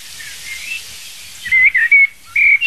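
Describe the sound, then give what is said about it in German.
A blackbird singing outside a forest in open country, with clear fluty whistled phrases in short bursts that grow louder and denser in the second half over a quiet background. “So, diese Amsel singt außerhalb des Waldes.”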